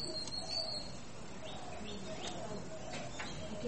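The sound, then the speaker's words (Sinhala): Babbler calls: a few faint, high, short chirps over a low, steady background murmur. “ඇටි කුරුල්ලෙක්. කාක්කොත් කෑගෙන.”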